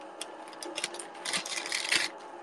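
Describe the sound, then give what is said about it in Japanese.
Rustling noise from someone handling something that crackles, with a few uneven bursts of scratchy, papery crinkling, faint and without talk. “ちょっとごめんね、うるさくてガサガサガサって、ね、”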